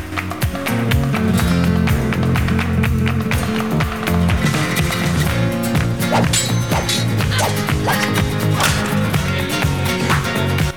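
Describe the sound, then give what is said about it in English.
Metallic clangs and sharp whacks of a sword and its scabbard used together as weapons in a fight, many rapid blows at uneven intervals over a sustained musical bed. “With her sword in one hand and the scabbard in the other, Oren uses both instruments as weapons.”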